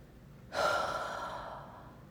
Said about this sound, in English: the physical thing I could do was I could take a deep breath. Just stop and go,